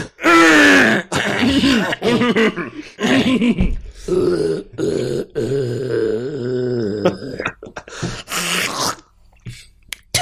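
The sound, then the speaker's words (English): Drawn-out, exaggerated throat clearing from a person, full of raspy groans and grunting bursts that come in many loud, rough pulses separated by short pauses across about ten seconds. “I will say there's a lot of throat clearing on these past episodes.”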